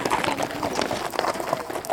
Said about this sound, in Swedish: så är alla klara och i skritt går det framåt och det är inte svårt att följa med till fots eftersom det är ett lugnt tempo.